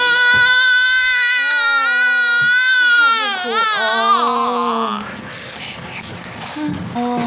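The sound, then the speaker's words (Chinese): A baby crying in a long, loud, sustained wail with a wavering pitch that breaks up toward the end. “别哭了啊，哎，哎，怎么回事啊？怎么老哭啊？”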